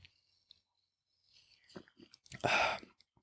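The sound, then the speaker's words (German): A sip of sugar-free cola is drunk from a bottle: a few faint mouth clicks and small noises, then one louder, brief gulping burst near the end, with no talking. “Und jetzt trinke ich mal einen Schluck, Moment.”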